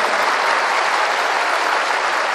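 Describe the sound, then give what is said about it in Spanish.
Audience applause for religious sisters at a church gathering, a loud, dense and steady roar of many hands clapping that holds evenly from start to finish. “Hoy, por ejemplo, no le hemos dado ningún aplauso a la vida consagrada. Que vivan las religiosas, muchas gracias por estar aquí.”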